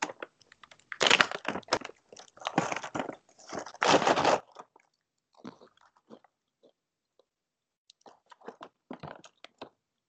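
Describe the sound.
A snack packet is torn open in a few loud crinkling, rustling bursts, followed by scattered quieter crunches and clicks of chewing, with no talk over it.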